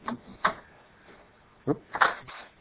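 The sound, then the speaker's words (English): Cassette tape being flipped over: a few short, sharp plastic clunks and clicks, spaced apart with quiet gaps, with no talking. “Excuse me a second while I flip the tape.”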